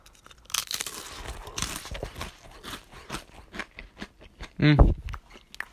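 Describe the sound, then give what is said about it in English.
Crunchy crackers being bitten and chewed close up, with many sharp, crisp crunches and crackles in an uneven rhythm and a brief hummed voice near the end. “I'm gonna eat these crackers. I'm gonna open them and I'm gonna tell you how it tastes.”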